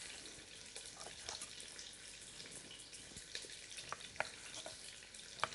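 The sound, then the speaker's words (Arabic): Soft, continuous sizzle of diced chicken frying with onions in a pan, faint and even, with occasional sharper pops and crackles rising above the hiss. “حنأخذ الدجاج ونضيفه مباشرة طبعا على البصل، ونستمر بتقطيع الكمية الثانية بنفس الطريقة.”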